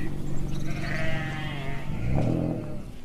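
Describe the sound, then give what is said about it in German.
Sheep bleat in a pasture where a shepherd's flock grazes peacefully: drawn-out, wavering bleats with a lower, rougher call near the end, over a steady outdoor background. “an seiner Weide und beobachtet seine friedlich grasenden Schafe”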